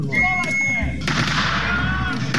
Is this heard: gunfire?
yes